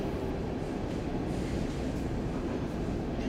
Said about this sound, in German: So drückend, dass man den Eindruck hat, die U-Bahn selbst versuche, ihr Fahren zu vertuschen.